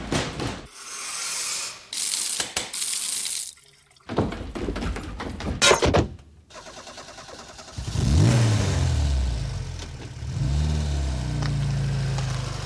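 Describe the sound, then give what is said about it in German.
A car being driven off fast: a run of mechanical clicks and clattering bursts, then a loud engine that revs up, rising in pitch, and holds a steady throaty drone to the end. “Ich stieg in ein Auto und fuhr schnell davon.”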